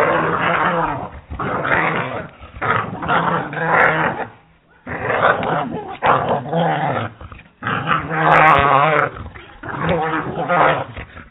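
A rabid dog growls in a played sound effect, a rough, loud snarl that comes in several long bursts with short pauses between them.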